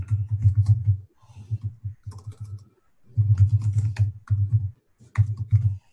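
Someone types a message into a chat on a computer keyboard, in bursts of rapid, thumping keystrokes separated by brief pauses.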